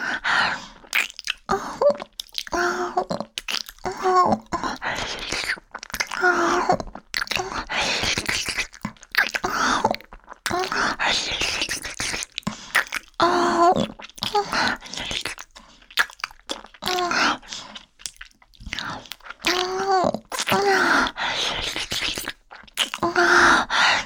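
Close, wet chewing and biting on food, with many irregular smacking and crunchy mouth sounds continuing throughout.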